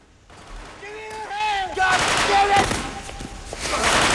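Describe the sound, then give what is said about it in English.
Gunshots ring out in a film shootout inside a fermenting store where a policeman is wounded in the leg. A few sharp, loud bursts follow a shouting voice, with noisy action continuing underneath. “In the fermenting store, a policeman's shot in the leg. Lewis tries to shoot the culprit, but can't get a fix on target.”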